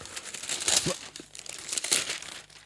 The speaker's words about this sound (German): Achtung, jetzt packt das aus.